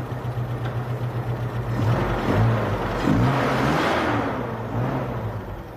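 A car engine idles, then is revved twice into a louder, rougher roar over a few seconds, and settles back toward a steady drone. No one speaks.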